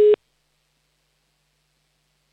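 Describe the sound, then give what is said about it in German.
Telephone line tone after dialing a number: one short, steady, mid-pitched beep, loud and clean, cut off abruptly and followed by silence. “Wir wählen wieder eine Nummer und hoffen, dass auch ein Kind abhebt, das sich angemeldet hat.”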